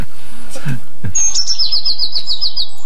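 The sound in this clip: A blue tit sings in a field: one high, thin note, then a fast run of many short repeated notes that slide slightly downward in pitch. The song is loud and clear, with faint low sounds before it.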